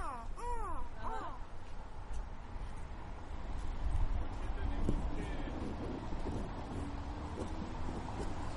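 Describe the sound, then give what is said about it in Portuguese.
A crow caws several times in quick succession at the start, harsh and fairly loud. A continuous noisy, wind-like background then fills the rest. “Ó, o corvo. Aqui, ó, tá. Não é o corvo que faz?”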